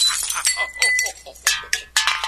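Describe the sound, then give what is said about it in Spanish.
Glass clinks and shatters as vases and mirrors fall and break, shaken by an ogre's roaring laughter. Several sharp, bright crashes come in quick succession, each with a ringing tail. “ese día había que guardar muy bien todos los floreros y los espejos, porque ante las carcajadas todo temblaba y, claro, se caían las cosas y se rompían.”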